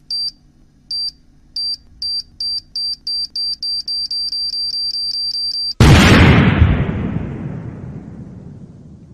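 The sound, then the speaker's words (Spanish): A bomb sound effect: short high electronic beeps that speed up into a rapid countdown, then a loud, booming explosion that slowly fades away, with no talk. “Poneme una bomba a mí, porque iba a ser la pregunta. Bueno, hágale. Poneme una bomba.”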